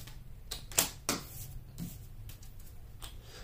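A tarot booklet being pulled out and handled, with a few sharp papery snaps and taps bunched in the first second, followed by softer scattered rustling and fumbling.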